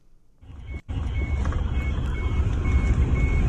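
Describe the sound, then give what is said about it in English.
Heavy, steady engine rumble of a combine harvester working in a field, growing louder after the first second, with a few faint high-pitched beeps repeating over the low drone. “A bloke actually went out into the countryside, right, and stood in front of a guy who was trying to use a combine harvester in a field.”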